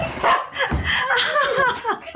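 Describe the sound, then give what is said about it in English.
A happy, excited dog yapping and whimpering in joyful greeting. A rapid, continuous run of short, high, whiny yips and squeals rises and falls throughout. “it's not just the happy yapping and wriggling tail wagging that tug at our heartstrings”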